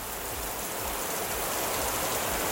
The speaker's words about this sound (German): dann höre ich auf meinem Handy Regengeräusche.